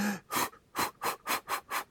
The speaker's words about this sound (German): dieses schnelle Ausatmen